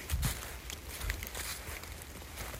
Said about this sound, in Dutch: Oh, en ik ga weer lekker wandelen. Het is echt helemaal donker.